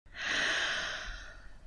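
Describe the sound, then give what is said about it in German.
A single deep breath in, taken during a relaxation exercise, forms a smooth airy hiss that swells quickly, holds, then slowly tapers over about a second and a half, alone without talk. “So atme tief ein”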